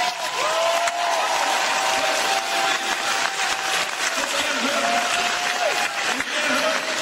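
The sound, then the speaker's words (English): An audience applauds at the close of a live show, with many hands clapping in a continuous, even roar that lasts throughout. “Let's give a round of applause to”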